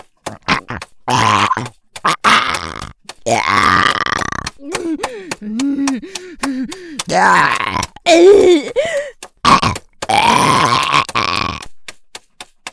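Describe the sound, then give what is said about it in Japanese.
Loud burps: a run of gruff, grunting belches around a long, high-pitched falsetto burp whose pitch warbles up and down, with short pauses between bursts. “出た、鼓膜つんざく高音裏声ゲップ、爽快感やっば、残響がマコに響いてるし”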